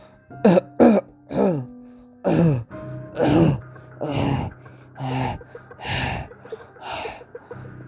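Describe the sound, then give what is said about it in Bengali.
A man wrapped in a shawl that covers his head coughs harshly again and again, with many hoarse, throaty bursts and throat-clearing sounds in an uneven rhythm. “কাশতে কাশতে একটু থেমে থুকতে লাগলো।”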